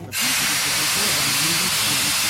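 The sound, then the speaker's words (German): Loud, steady steam hiss from a train starting to move, a continuous broad rushing sound that begins abruptly and holds at an even level throughout. “Der Zug setzte sich in Bewegung. Zunächst langsam und dann immer schneller.”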